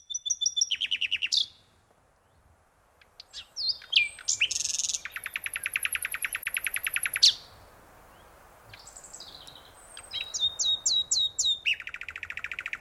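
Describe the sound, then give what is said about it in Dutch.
A Zeeland nightingale sings in bursts of varied phrases separated by short pauses: clear whistled notes, sharp chirps and a long, rapid, buzzy trill, loud against a quiet background with no voices. “We gaan nu luisteren naar een Zeeuwse nachtegaal.”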